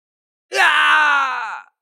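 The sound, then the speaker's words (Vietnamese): An anguished scream as an audiobook sound effect: one loud, drawn-out cry of pain lasting about a second, heard alone and slowly tapering off. “Hai tiếng kêu thảm truyền tới.”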